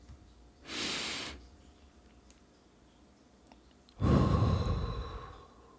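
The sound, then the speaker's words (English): A slow, deep breath during a guided relaxation exercise: a soft, airy inhale, a quiet pause of a few seconds, then a longer and louder exhale that fades out. “Let's take in that deep breath for like 3 or 4 seconds, and then we're going to release it for another 3 or 4 seconds.”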